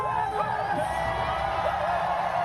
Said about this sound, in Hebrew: בהחלט, וככה הוא התקבל אתמול במחיות כפיים סוערות של הקהל שהיה שם.